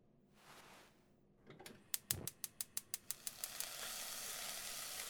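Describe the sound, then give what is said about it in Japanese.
Ingredients stir-frying in a pan for a light late-night dish: a quick run of sharp clicks, then a loud, continuous sizzle that builds and holds to the end. “うん、いい感じ。このままいい色になるまでしっかり炒めて。”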